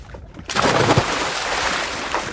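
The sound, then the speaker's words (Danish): A winter bather plunges into cold water at Kolding, Denmark. After a brief quiet moment, a sudden loud splash breaks out and continues as a sustained, rushing churn of water. “Her det sprøjter op”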